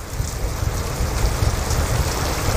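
Heavy rain pouring down as a steady, dense, loud hiss with no talk.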